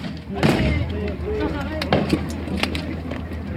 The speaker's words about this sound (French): Ça y est, les manifestants autonomistes commencent à tirer.